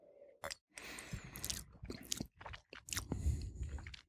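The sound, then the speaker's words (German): Wet sipping and slurping of wine during a tasting: a few short mouth sounds with smacking and swishing, moderately loud. No one speaks. “Ich nehme nochmal einen Schluck.”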